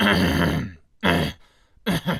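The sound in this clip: Throat clearing to dislodge something stuck: three rough, gruff bursts with brief pauses between them, fairly loud and alone.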